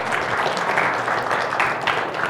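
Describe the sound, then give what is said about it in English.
Audience clapping in recognition of a nursing-program student: a steady patter of many hands for a couple of seconds, moderately loud, with a few brief swells in intensity. “it's okay to clap for Crystal”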